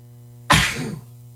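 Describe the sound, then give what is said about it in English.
A single sharp sneeze bursts out over a faint steady hum, a forceful noisy blast that trails off within about half a second. “I got to sneeze, and then we're going to play this thing. I don't know why I have to sneeze.”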